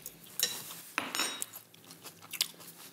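Crunchy bites and clinks of cutlery as a freshly made salad is tasted, with a few sharp, crisp clicks and crunches spread over a soft background.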